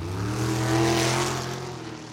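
A race car engine revs at a summer night race meeting at an Alaska raceway: a loud, steady, rich-toned drone that swells to a peak near the middle and then eases slightly, with no voices.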